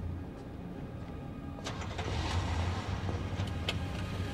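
A car's engine rumbles low and steady as the car drives toward an exit, swelling slightly partway through, with a few brief clicks above the hum.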